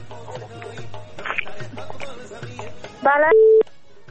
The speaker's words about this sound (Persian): تماس بعدی را باید بگیریم.